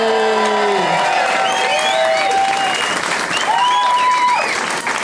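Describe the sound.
Applause and cheering from a live audience in Denver as a guest is welcomed on stage. The clapping is loud and dense and lasts the whole clip, with whoops and shouted voices rising over it.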